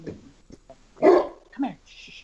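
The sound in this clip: A dog barks a couple of times, with a loud, sharp burst near the middle and a shorter one after it, while a person speaks quietly around the barks.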